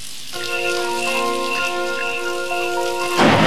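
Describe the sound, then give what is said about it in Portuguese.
Light rain falling: a soft, steady hiss of drizzle beneath a sustained, droning musical chord, which thins out at the end and leaves the rain noise alone. “E de repente cai uma chuvinha, né? Cai uma chuva de leve.”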